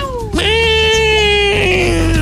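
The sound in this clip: A cat meowing: one long, loud, drawn-out yowl that rises sharply at the start, holds a steady wavering tone, then sags slightly toward the end.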